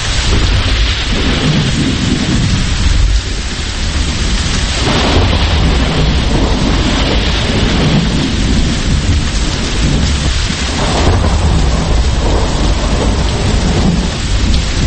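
Heavy rain pours steadily through a thunderstorm while deep thunder rolls and rumbles beneath the constant hiss of the downpour. The sound is loud and unbroken throughout, with no voices.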